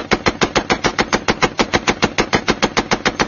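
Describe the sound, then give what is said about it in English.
Machine gun fire rips up a doorway in one loud, sustained burst of many rapid shots, evenly spaced in a steady rhythm. “Then a flurry of machine gun fire ripped up the doorway.”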